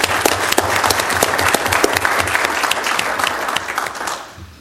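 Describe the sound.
Audience applause at a council meeting for a supporter of a trail project, dense continuous clapping from a crowd that holds steady and then tapers off at the end.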